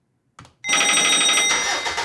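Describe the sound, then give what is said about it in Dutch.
A telephone rings for a call: a short click comes first, then a bright electronic ring tone starts and holds steady and loud to the end. “Laten wij gaan bellen met Henk.”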